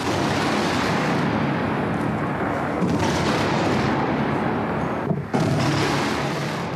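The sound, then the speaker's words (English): Explosions from the US-led bombing campaign on Baghdad, Iraq, heard as a dense, continuous loud roar and rumble with no clear break between blasts, and one brief dip near the end. “48 hours later, the U.S.-led bombing campaign in Iraq began. That was known as Shock and Awe. Now, this is what it looked and sounded like in Baghdad.”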